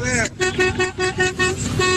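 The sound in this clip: A horn, called a buzzer or vuvuzela, blares in a rapid series of many short, loud toots at a steady pitch, with brief gaps between the blasts.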